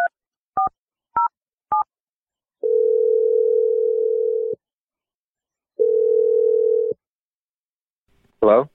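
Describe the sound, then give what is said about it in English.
Phone dialing while placing a call: four short touch-tone beeps, then two long, steady ringback tones separated by a pause, and finally a voice answering at the very end. “So let's dial his number. We'll see if he answers”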